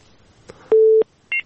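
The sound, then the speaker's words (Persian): Telephone tones as a new call is dialed: a faint click, then a steady mid-pitched tone lasting about a third of a second, followed by a shorter, higher dual tone, with no talk over them. “یک تماس دیگر را میگیریم.”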